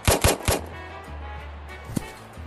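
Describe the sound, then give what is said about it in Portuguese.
A gunshot sound effect plays during a tabletop role-playing game: three sharp shots in rapid succession, a low lingering rumble, then one more crack after a pause. “Atiram a Paola.”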